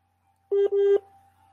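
Two steady electronic telephone tones, one short and one longer, sound back to back at a constant mid pitch with a tiny gap between them as a late-night phone call is answered, followed by quiet faint noise.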